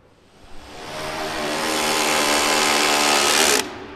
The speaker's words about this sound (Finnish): No sinne menee nyt ruuvi poikineen.